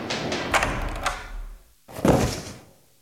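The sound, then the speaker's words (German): A heavy object, apparently a record, slammed down onto a table in an office scene: a few dull, loud thuds, with the strongest impact coming last after a short pause. “Was haben Sie uns denn da auf den Tisch geknallt?”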